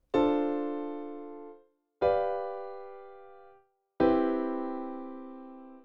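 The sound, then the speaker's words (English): A 2-5-1 progression in C plays as three chords, D, G, then C, struck about two seconds apart. Each is a clear, rich harmonic chord that rings and slowly fades before the next, with no voices. “The 2-5-1 in C would be D, G, then C, and it sounds like this.”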